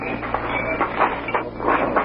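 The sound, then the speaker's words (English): A railroad boxcar starts to move in a freight yard: a steady low rumble carries repeated bursts of metallic clatter, coming at an uneven rhythm throughout. “It's the third boxcar that's starting over there, Chief.”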